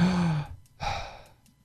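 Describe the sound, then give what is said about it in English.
A voice imitates the gasping breath of a patient suddenly starting to breathe on his own just before organ donation surgery. A long, rasping drawn breath is followed by a shorter second gasp that trails off, with no other sound. “Right before the surgery, he started breathing on his own. All of a sudden, they notice him going,”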